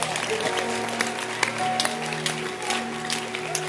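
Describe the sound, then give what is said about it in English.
A church audience claps hands in a steady patter of many overlapping claps, with sustained tones running underneath throughout. “Keep clapping your hands. Keep clapping your hands.”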